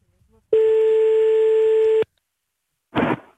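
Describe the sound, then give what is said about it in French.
A telephone sounds one steady, clear electronic tone lasting about a second and a half, loud against silence, followed after a pause by a brief noisy burst. “mon téléphone vient de sonner”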